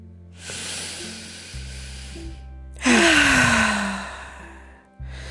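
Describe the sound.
Deep breaths drawn in and out during a guided spring relaxation exercise: several long, airy inhales and exhales, one ending in a soft voiced sigh, over faint low sustained tones.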